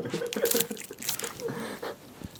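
Someone eating a chocolate-flavoured, waffle-style protein bar: a few crisp crunching bites, then soft, moist chewing, all at a fairly quiet level.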